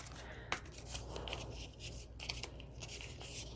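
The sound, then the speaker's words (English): Scissors trimming yellow, white and pink craft pieces down to size: a few faint, crisp snips spaced irregularly over a low steady hum. “Okay, maybe I can trim these down a little bit.”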